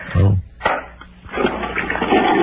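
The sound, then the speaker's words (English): A toilet flushes during a phone call, heard down the line as a gurgling rush of water that bursts twice, then swells into a steady whooshing flow lasting to the end. “nice flush”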